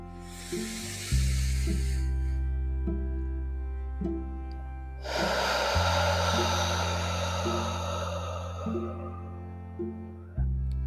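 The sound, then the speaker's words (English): A deep breath drawn in through the nose, a pause, then a long exhale during a guided breathing exercise. Two airy hisses, a shorter one first and a longer, fuller one later, sound over soft, sustained low music. “Again, full breath in through the nose, pause and exhale.”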